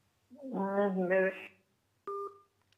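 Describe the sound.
A single short telephone line tone sounds after a caller disconnects during a call-in, following a brief stretch of voice and a pause; the tone is steady and mid-pitched, lasting under half a second.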